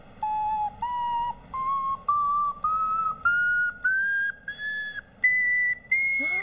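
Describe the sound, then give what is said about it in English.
Whistling made by blowing air through a film-case container with a straw and extra holes, a series of clear, pure whistle notes that step upward in pitch one after another, each held briefly with short gaps between. “Let's compare the sounds. First, I'll use the container with extra holes.”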